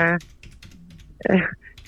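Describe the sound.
Typing on a computer keyboard: quick, light key clicks run through the middle, with brief bits of a voice speaking at the start and near the end.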